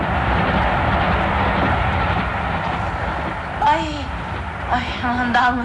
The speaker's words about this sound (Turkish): Dalmışım, o gürültü neydi? Ya bir yük katarı geçti yanımızdan.